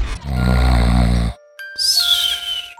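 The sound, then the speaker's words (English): A person snores while sleeping contentedly: one long, loud, low rasping snore, then a short pause and a bright, tinkling chime. “That's the sound of a member of the Sherwood Windows team sleeping contentedly.”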